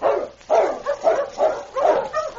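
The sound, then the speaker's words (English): A sled dog team barks in a quick series of sharp, mid-pitched barks and yips with short gaps between them. The barking is loud and steady, and no voices are heard. “He turned his attention to the dog team again.”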